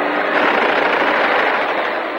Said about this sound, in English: His bullets stream behind the speeding plane, then find their mark.